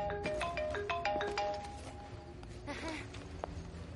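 A telephone ringtone rings in a film scene, playing a quick melodic run of short, bright tones at the start before fading into quieter background sound.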